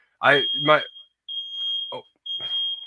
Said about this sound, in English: want to make sure that wasn't my smoke alarm here, that beep, if you guys can hear that.